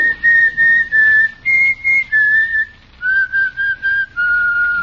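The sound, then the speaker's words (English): A person whistles a tune in clear, bright notes, some short and some held, with short gaps between phrases. The melody steps a little higher, then settles lower in the second half, alone and fairly loud. “The whistling bandit sounds like this.”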